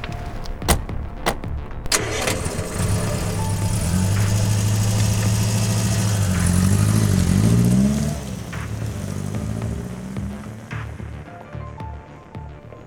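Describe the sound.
A car engine starts, idles and revs as the car drives off. A steady mid-low engine hum builds, climbs in pitch during the rev, then thins and fades away toward the end.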